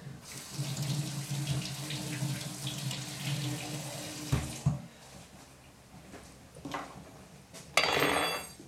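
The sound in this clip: Vegetables are washed under a running tap. Water splashes steadily for about four seconds, followed by a couple of knocks, quieter trickling and a brief fresh gush at the end.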